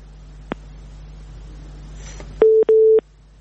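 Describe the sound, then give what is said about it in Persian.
Telephone line tone as a caller is cut off during a call-in program: a faint click, then a sharp click and two steady mid-pitched tone beeps back to back, fairly loud, over a low hum. “تماس دیگه داریم، تماس مو قطع شد با شنونده ما.”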